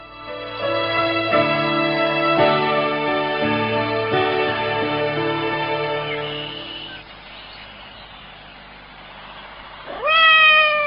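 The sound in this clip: A cat meows in a domestic scene. A long, wavering, drawn-out cry comes first, then after a quieter stretch a short, louder meow with falling pitch.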